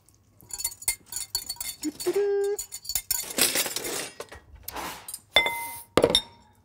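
Glass clinking as dressing is stirred into a salad, with scattered, irregular taps and scrapes of a utensil against the bowl, mostly faint, and one brief ringing tone among them.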